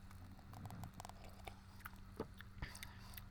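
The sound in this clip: Faint chewing and small biting clicks come as someone tastes a creamy, fruit-scented food. The soft, irregular mouth sounds continue throughout.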